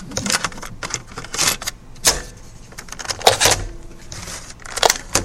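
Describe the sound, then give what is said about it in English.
Plastic clicks and rattles of a cassette tape being turned over in a recorder: a series of short, sharp knocks and clatters in irregular bursts, fairly loud, with no one speaking. “I'm just going to turn this tape over.”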